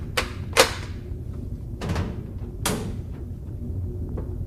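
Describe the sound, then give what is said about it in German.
A bolt is drawn back and a door opens aboard a ship. Four sharp clacks and thuds come in quick succession, with a loud knock early on and quiet gaps between them. “Bitte, machen Sie auf! Wer ist da? Aufmachen, bitte! Da muss ein Riegel sein, bitte!”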